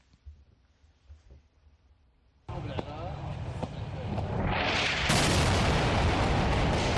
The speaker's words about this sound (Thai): ก็เป็นนาทีของการโจมตีที่เกิดขึ้นนะครับ